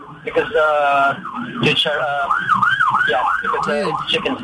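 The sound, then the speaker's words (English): An ambulance siren wails loudly, opening with a held tone before settling into a rising-and-falling sweep that repeats in steady cycles. “I'm sorry, that's an ambulance taking somebody who's eating all the clogged artery.”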